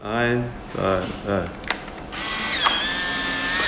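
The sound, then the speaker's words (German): An instant camera takes a photo: after a brief spoken voice comes a sharp shutter click, then a steady whirring motor drive as the print is ejected, humming evenly to the end. “Ein vertrautes und nostalgisches Geräusch. Ein Foto mit einer Sofortbildkamera.”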